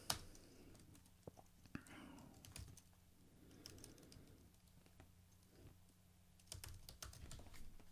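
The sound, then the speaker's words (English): Typing a search on a computer keyboard: many quiet, irregular key clicks run throughout, with a busier flurry of keystrokes near the end. “Let's write it in Google.”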